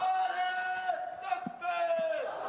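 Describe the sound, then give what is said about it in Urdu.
A crowd chants the takbir slogan Allahu Akbar in loud, sustained massed voices, the chant pausing briefly near its middle before resuming. “اللہ اکبر یہ نعرہ تکبیر محسوس ہوتا ہے”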